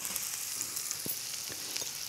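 Thinly sliced red onions fry in a pan with a steady, even sizzle and crackle throughout, broken by a few soft low knocks.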